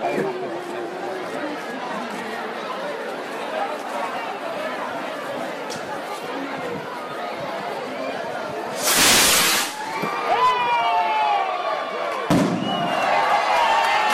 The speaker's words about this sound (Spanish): se acerca al cohete que va a prender la mecha, y de esa forma